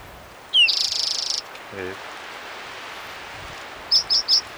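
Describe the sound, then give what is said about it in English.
Bird calls: a buzzy, high trill, then a quick run of three short, sharp chirps, all over a constant hiss of outdoor background noise. “Might be a second bird crying.”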